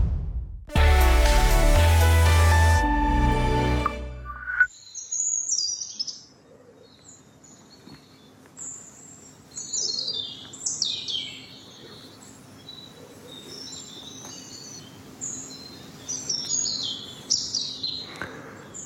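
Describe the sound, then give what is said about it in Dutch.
European robin song: high, thin, varied twittering phrases repeated many times at moderate loudness, after a loud tonal musical jingle at the start. “We krijgen heel wat roodborstgeluid binnen momenteel.”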